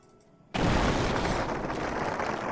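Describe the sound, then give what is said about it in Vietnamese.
Old, battered warships explode in a sudden loud blast after a quiet start. It swells into a sustained, roaring rumble that holds strongly for about two seconds. “4 tiếng nổ vang kinh thiên động địa, tàu chiến hạm cũ nát đã lập tức biến thành 4 quả cầu lửa cực lớn ngay trước mặt Trác Thiên Tướng.”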